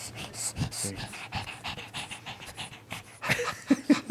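A female dog pants into a microphone in quick, steady, rhythmic breaths that repeat many times, fairly loud and breathy, with a few sharper huffs near the end.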